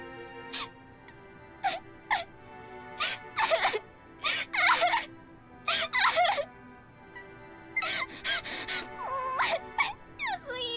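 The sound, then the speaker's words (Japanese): Loud crying from a woman in a company dormitory, many wailing sobs in uneven bursts with gasping breaths between them, with no other talk. “おい、あんまり大きな声で泣くなって。ここ社員寮だから他のやつに見つかるとやばいんだよ。”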